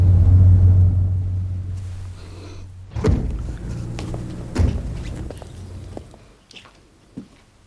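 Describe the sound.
A car's low engine rumble fades as it pulls up and comes to a stop, followed by two heavy thuds and some faint clatter in the quiet afterward.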